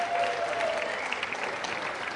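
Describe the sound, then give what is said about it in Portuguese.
Church audience applauding to welcome a seminarian: a steady, dense wash of clapping that lasts about two seconds and fades slightly toward the end. “Então eu queria convidar o Breno, que é seminarista aqui da igreja. Um salve de palmas para o Breno.”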